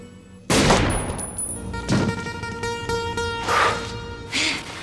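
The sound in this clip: Gunfire rings out in a scene from the film Tank Girl: a few loud, sharp shots spaced apart over sustained musical tones.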